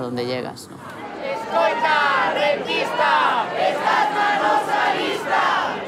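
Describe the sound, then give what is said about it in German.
Residents protest loudly in Santiago de Compostela against tourism, a crowd shouting chants together in sustained, forceful bursts with many overlapping voices throughout. “Heute sind mal die Anwohner laut in Santiago de Compostela.”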